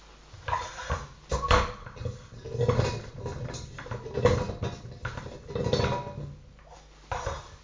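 Numbered balls are mixed for a shinty cup quarterfinal draw, giving off hollow knocks and light clinks in several rolling bursts of similar loudness, with no talking.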